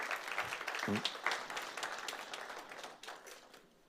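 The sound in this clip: A church audience claps softly while a voice is briefly heard near the start. The clapping slowly thins out and grows fainter toward the end.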